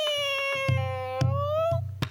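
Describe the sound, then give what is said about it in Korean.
A person imitates a cat meowing with one long, high, drawn-out cry that stays fairly level before it stops, over a few soft thumps. “그리고 이제부터 고양이가 나올 거예요. 우리 고양이 울음소리도 한번 내볼게요.”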